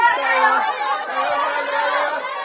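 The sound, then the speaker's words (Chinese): Teachers call out encouragement to students arriving for exams, a dense crowd of overlapping voices at a steady, lively level. “大家看到我身后有非常多的送考老师们正在热烈的给学生们加油打招呼。”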